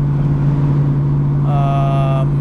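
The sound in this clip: Car engine with an H-pipe and Magnaflow Magnapack exhaust, cruising at highway speed around 2200 RPM: a steady low droning hum throughout, with a higher whining tone appearing briefly partway through.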